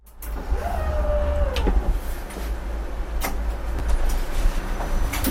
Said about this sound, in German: Die Bahn fährt los. Fast von alleine.